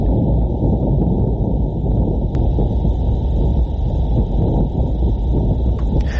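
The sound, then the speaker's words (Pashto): Wind on Mars recorded by the InSight lander, a steady, loud low rumble that blows without pause for the whole stretch, with a faint thin high whine running underneath. “پلټونکي وسیلې د لومړي وار لپاره په مریخ کې د بادونو غږونه ثبت کړي دي.”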